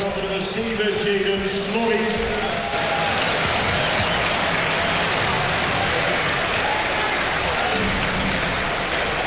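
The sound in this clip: Stadium crowd cheering a substitute during a Willem II versus Excelsior Eredivisie football match, a loud sustained roar that holds steady throughout, with a commentator talking over the opening seconds.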